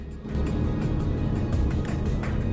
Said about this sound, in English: The SUV pulls away through the knot of military vehicles.